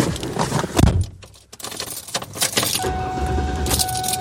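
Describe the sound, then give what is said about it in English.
Keys jangle and a few clunks come first, then a car engine is started after home repair work and settles into a steady running drone with a constant whine. “Let's start her up and see what it sounds like.”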